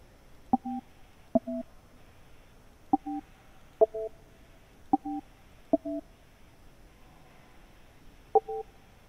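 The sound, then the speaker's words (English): Seven short two-tone telephone keypad beeps dial a name into an automated company directory. Each press starts with a tiny click, the presses are irregularly spaced, and a longer pause comes before the last one. “Please dial your party's name, followed by pound key.”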